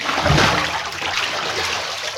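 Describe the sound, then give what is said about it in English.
Watery splash and sloshing as a wolf falls into a big pot of boiling water on a fire, a broad wet rush that swells early and stays steady for about two seconds, with no voices. “the wolf fell right into the boiling water.”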